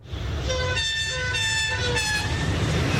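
A train horn sounds a few short, bright chords over a steady rail rumble, linked to high-speed rail travel into Barcelona. The blasts come at uneven intervals above the continuous low noise.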